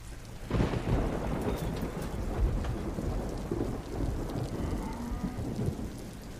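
Heavy rain and thunder outside: a steady rush of rain on surfaces with deep rolling rumbles that begin suddenly after a brief quiet moment, then hold loud and continuous throughout.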